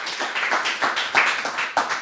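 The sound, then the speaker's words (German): An audience welcomes a guest speaker at a Datengarten talk event with a round of hand clapping, a bright, steady patter with a few louder, distinct claps standing out along the way. “Einen großen Applaus bitte.”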